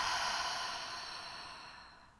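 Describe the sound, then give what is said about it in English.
A deep exhale through the open mouth during a guided breathing exercise: a single breathy whoosh, fairly soft, that fades gradually over about two seconds with nothing else around it. “Breathe in through your nose, fill up your lungs top to bottom, side to side. Open mouth, exhale.”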